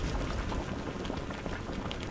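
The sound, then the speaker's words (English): Maple sap boiling down over a stoked fire in Geauga County: a dense, steady bubbling hiss that runs without pause. “Stoking the fire to boil down that maple sap in Geauga County.”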